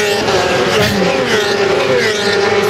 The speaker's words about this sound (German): Und in dem Moment, wo es vorbeirauscht, spürt man förmlich die Gewalt der Motorräder.